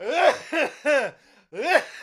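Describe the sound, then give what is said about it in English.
A voice imitates a loud, rhythmic, articulated sneeze in a father's style, with a few strong voiced bursts in a steady pattern and a brief quieter gap before the last one. “I inherited my father's sneeze, which growing up, I always thought was performative, because his sneeze goes like this. I'm about to perform it for you, okay?”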